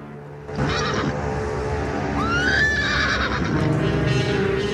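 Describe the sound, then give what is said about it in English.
A mare's loud, drawn-out whinny as she gallops and rears up on her hind legs in snow, a single shrill neigh rising over a steady background wash. “The mare gallops swiftly towards Jack and rears up on its hind legs.”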